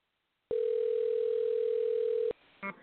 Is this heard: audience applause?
no

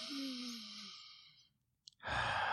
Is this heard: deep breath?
yes

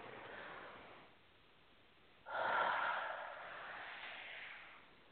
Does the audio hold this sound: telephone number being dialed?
no

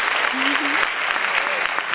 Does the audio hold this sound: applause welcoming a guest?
yes

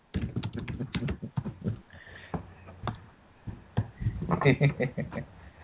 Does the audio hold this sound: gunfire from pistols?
no

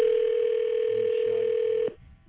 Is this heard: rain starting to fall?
no

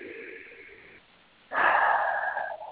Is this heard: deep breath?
yes

